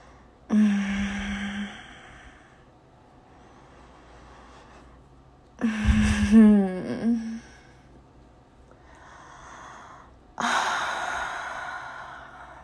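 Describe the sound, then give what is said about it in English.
Slow, deep breathing by a woman: three long, breathy breaths several seconds apart, each rising and fading softly, with quiet pauses between them and no talk. “And I breathed like this for a while.”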